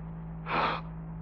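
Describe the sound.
A voice imitates a gasp of breath returning: a single short, sharp breathy intake over a steady low hum.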